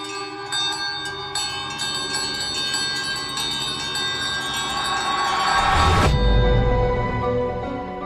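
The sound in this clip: A house service bell rings on its own with a bright metallic tone, struck again and again, with ringing overtones that hang between the strikes. A low, rumbling surge of noise builds near the end.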